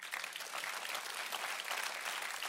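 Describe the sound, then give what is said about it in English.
A church audience claps for the Lord during a worship service: dense, even applause holding at a steady level throughout, with no talk over it. “Let's give the Lord a clap.”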